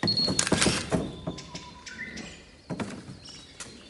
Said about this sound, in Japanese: ズームするから待って。撮るよ。はい、チーズ。